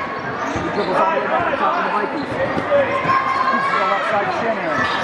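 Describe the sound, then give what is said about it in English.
A basketball is dribbled during a basketball game, with bounces under continuous commentary and crowd noise throughout. “He dribbles all the way back to the top of the Vikings.”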